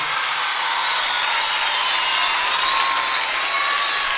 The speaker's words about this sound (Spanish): se llama Nicolás Mattioli, quiero fuerte el aplauso para él